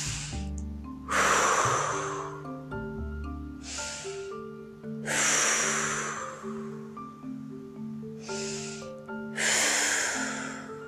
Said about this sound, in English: We shall take a deep breath three times.